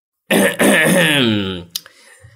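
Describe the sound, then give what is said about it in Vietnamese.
A man clears his throat with one loud, drawn-out, voiced rasp, heard alone, then a brief softer catch as it trails off. “Ông ta hắng giọng.”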